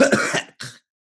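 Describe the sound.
Coughing and throat clearing from someone struggling to breathe: two short, raspy bursts in quick succession, loud and alone with no talk.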